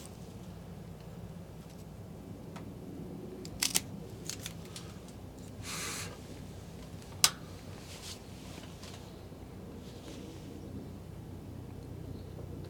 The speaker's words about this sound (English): Now let's go ahead and cut it and let's see what the draw is like. Now, let's see, I'm going to use a different cutter where that pigtail cap kind of gets in the way.